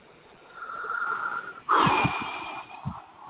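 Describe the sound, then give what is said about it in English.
A deep breath taken during a spoken letting-go exercise: a long, soft, breathy rush of air, then a louder, fuller rushing breath, heard alone without talk. “I let it all go. And take a nice deep breath.”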